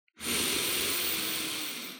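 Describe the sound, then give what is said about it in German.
A single deep inhalation taken during a guided morning meditation: a steady, airy rush of breath that lasts about two seconds and tapers off slightly at the end. Quiet, with no voice over it. “Der erste tiefe Atemzug heute. Tief ein.”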